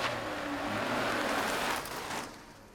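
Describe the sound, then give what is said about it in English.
A car drives away, its steady rushing engine and tyre noise holding for a couple of seconds before fading toward the end. “Meanwhile, Alex is driving away.”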